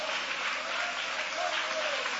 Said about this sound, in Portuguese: podem aplaudir a Deus com alegria. Pode glorificar o nome de Jesus.